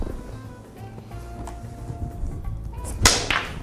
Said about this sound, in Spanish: Quiero que veas este tiro. A ver. Porque la 6 va a entrar aquí Ajá. Y la 9 se va a ir para allá, pero va a empujar a la 14. Ok. Checa este tiro.